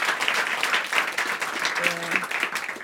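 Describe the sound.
Audience applause from a crowd at a live music performance, a steady wash of clapping that holds at an even level throughout, with some voices mixed in.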